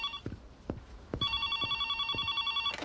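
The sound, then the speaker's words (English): A telephone rings with a steady, bright electronic tone that starts partway through and continues to the end, over low rhythmic thumps. “I'm sorry, I thought I put that on voicemail.”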